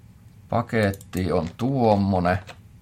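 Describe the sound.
Typing on a computer keyboard while entering a Java FXML package name, with a voice murmuring over the keystrokes for about two seconds.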